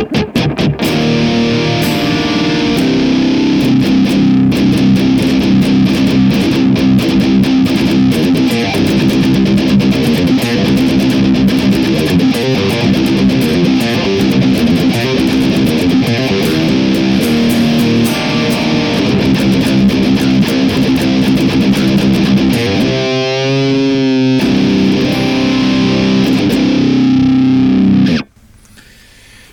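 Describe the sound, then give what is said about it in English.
Electric guitar through a JHS Bender fuzz blended with a second fuzz, run into a simulated greenback speaker cabinet with KT88 power tubes, gives a thick, saturated wall of sustained distortion. It plays loudly and continuously before cutting off abruptly near the end. “And then we're blending it with another fuzz, which is the JHS Bender through a greenback with KT88 power tubes. And it sounds pretty amazing. So this is what our Neural DSP sounds like.”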